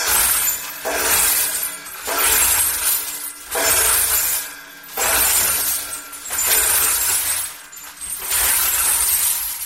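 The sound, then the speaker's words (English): Shattering glass from a trap drummer's crank-turned sound-effect instrument imitating bottles breaking, heard as several loud crashing, clinking surges with brief dips between them. “So you turn one crank basically to get the glass kind of moving around per bottle breaking.”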